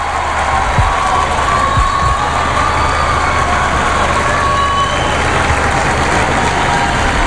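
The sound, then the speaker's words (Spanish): Street crowd noise outside the Nativity facade of a cathedral at a tower inauguration. A loud, dense, unbroken wash of noise holds steady throughout, with a low rumble underneath. “Bien, pues está a punto de salir al exterior ahora mismo, a esa fachada del nacimiento. Ahí está, el sonido de la calle.”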